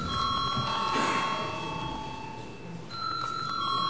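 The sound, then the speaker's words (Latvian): A bell rings in a parliament chamber before a vote, holding steady high tones under a low background murmur. The ringing dips slightly mid-clip, then returns brighter toward the end. “Paldies, lūdzu zvanu.”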